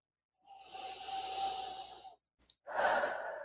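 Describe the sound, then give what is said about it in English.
A big deep breath taken alone: a long, steady inhale lasting over a second and a half, a brief pause, then a strong, breathy exhale. “I give myself permission to finally heal what happened. Big deep breath.”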